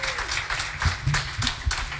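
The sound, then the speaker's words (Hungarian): Audience clapping at a concert between songs: a brief, irregular burst of applause with uneven low thumps mixed into the clatter. “most lehet tapsolni, köszönjük szépen!”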